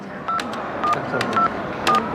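Telephone keypad dialing tones as a caller dials a guest's hotel room: four short, clear beeps spaced evenly, with no talk.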